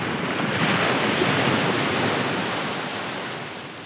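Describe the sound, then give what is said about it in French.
Rising tide washing over pebbles: a loud, continuous, broad rushing surf with a wind-like hiss that eases slightly toward the end. “La marée montait et s'avançait sur les galets, avec un bruit de chaîne et de sanglots.”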